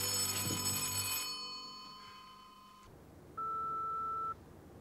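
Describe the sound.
A telephone rings at night in a house: one steady electronic ring tone lasting about a second, standing out over a low background hum.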